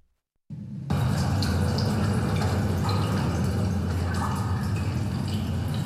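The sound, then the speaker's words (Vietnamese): Natural running water makes a steady, dense rush that starts abruptly after a brief silence and then holds at an even, fairly loud level without pause. “Đó là âm thanh tiếng nước trong tự nhiên.”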